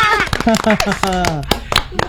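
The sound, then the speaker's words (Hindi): Several sharp hand claps ring out during a children's lesson, scattered among lively young voices that talk over them. “बजाओ सी बात को जोरदार तालियां, बजाओ तालियां, शाबाश।”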